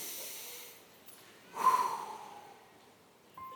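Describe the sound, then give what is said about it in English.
A deep breath: a loud, airy rush of air swells in the middle, then slowly fades over a couple of seconds. Quieter breathy noise comes before it, and a short puff follows at the end. “Take a big breath. Take a deep breath.”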